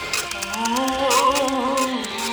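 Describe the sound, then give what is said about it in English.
A dot matrix printer printing: a wavering, buzzing mechanical whine overlaid with rapid, regular clicking, continuous from start to finish. “Is that your dot matrix printer, or did it come with the room?”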